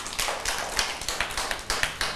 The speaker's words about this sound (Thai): เก่งมากเลยปรบมือให้กับเพื่อนหน่อยค่ะ